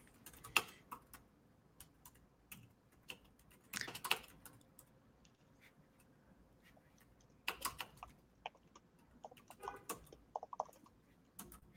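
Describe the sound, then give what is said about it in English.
Typing on a computer keyboard comes in scattered bursts of quiet, sharp key clicks, irregular in rhythm, with short flurries separated by stretches of near silence. “actually, I'm going to type.”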